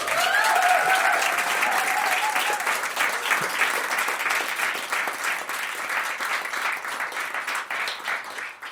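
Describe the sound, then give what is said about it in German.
Audience applause at a live show: dense, steady clapping fills the whole stretch at an even, fairly loud level and eases slightly toward the end. “War gut mit dem Applaus, oder?”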